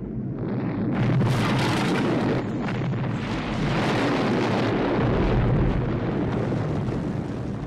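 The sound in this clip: A dynamite explosion tearing apart a compound makes a loud, continuous roaring rumble that fills the whole clip. It holds a dense, broad, turbulent blast noise with only slight swells and no pause.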